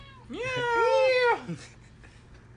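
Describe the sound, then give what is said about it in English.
A cat meows once, a single long, loud, drawn-out meow that rises and then falls away, heard alone with no talk over it. “Then it came crawling back, meowing. And it's like, she'll interrupt. She wants attention. You know cats.”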